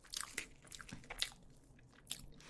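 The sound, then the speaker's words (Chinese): Someone bites and chews a piece of cake made with mango. The bites and moist chewing are soft and faint, with a few crisp crunchy bursts and no talking. “这给我，尝一口，还放了芒果，”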